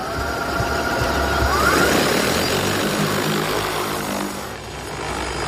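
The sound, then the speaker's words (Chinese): An agricultural drone's propellers spin up for takeoff before a field job, a dense whirring roar that swells to a peak in the first seconds, holds steady and dips briefly near the end, with no voices. “飞行器即将起桨，请远离。起飞，返航点已记录。”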